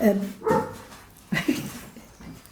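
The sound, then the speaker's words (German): A dog barking, a few short barks and yelps mixed in with people talking. “der Hund bellt. Der interessiert sich auch dafür.”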